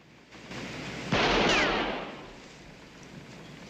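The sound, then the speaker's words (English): A single pistol shot fired by a farmer at a sign in a film scene: one sharp, loud blast lands abruptly and leaves a rumbling tail that slowly fades over the following seconds. “Clyde hands the farmer his pistol. The farmer shoots up the sign.”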